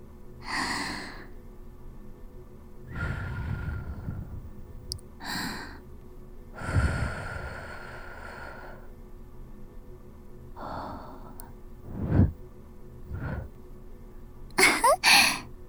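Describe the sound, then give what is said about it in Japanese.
Gentle air is blown into an ear during ear cleaning as a series of soft, breathy whooshes and puffs separated by quiet pauses, faint overall. “じゃあおじさんの大好きなふうふうしてあげる。それじゃあ行くよ。”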